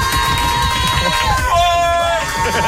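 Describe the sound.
A woman in the audience of a live evening radio show shouts on her own. Her loud, sustained high-pitched cry wavers and glides in pitch above a bed of crowd noise.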